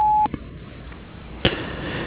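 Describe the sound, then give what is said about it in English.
A voicemail beep, one steady, fairly high tone lasting about a quarter second, sounds at the start before recording, followed by faint line hiss and a single brief click. “At the tone, please record your message. When you have finished recording, you may hang up or press 1 for more options.”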